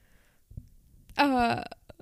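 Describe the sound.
A voice imitates a burp with one loud, drawn-out, croaking vocal burst in the middle. Softer low thumps come before it, and a few brief bits follow.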